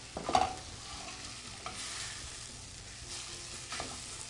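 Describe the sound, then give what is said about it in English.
Tomato paste sizzles as it fries with vegetables and onions in a pan. A steady, hissing sizzle continues throughout, broken by a few scraping stir strokes. “I just want to get the tomato paste to taste, to cook a little bit, coat these vegetables, and just get a little stuck to every piece.”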